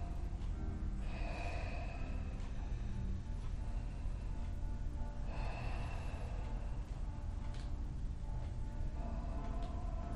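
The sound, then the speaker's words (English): Ujjayi yoga breathing, slow drawn-out inhales and exhales with a soft throaty hiss; a few long breath swells rise and fade over a steady low rumble, faint overall. “we're going to visualize the breath flowing in us and out through us as we do Ujjayi breath”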